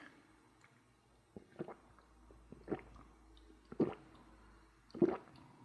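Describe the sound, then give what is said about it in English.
Sips and swallows of an orange-coloured drink come as a few soft, wet gulping bursts, faint and spaced apart by quiet pauses. “It's orange, so it could be orange juice. I have a suspicion though that when I drink this, it's going to be anything but tasting like orange juice.”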